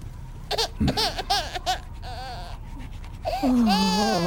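An infant cries in short, quavering wails broken by brief pauses, ending in a louder, sustained, wavering cry.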